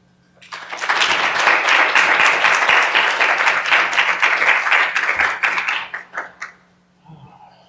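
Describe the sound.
Audience applause welcoming a speaker to the Pratt Library in Baltimore: a dense, sustained burst of many hands clapping, which thins out into a few scattered claps and then dies away.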